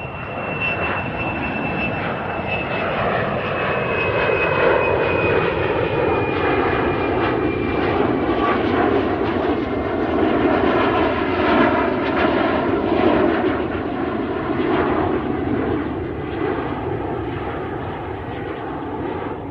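Aircraft engine roar from a plane flying overhead at night, a loud, steady drone lasting about twenty seconds that swells and then slowly eases, with a thin high whine sliding downward through the first half.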